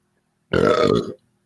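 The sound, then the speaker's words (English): A single loud, deep burp from an adult sounds alone, a short rumbling belch of about half a second with a rough, buzzing tone. “That was my burp, by the way.”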